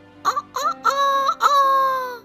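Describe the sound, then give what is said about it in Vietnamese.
A rooster crows from a fence at dawn: a few short harmonic calls lead into one long, sustained note that falls slightly in pitch. The crow is loud and clear, with no talk over it. “Khi bác gà trống nhảy lên hàng rào, cất tiếng gáy vang,”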